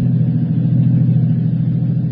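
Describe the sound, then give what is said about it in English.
Steady low engine and road rumble of a car driving behind another car, an even, unbroken drone with no talk. “That car back there, it's been behind us since we left the office.”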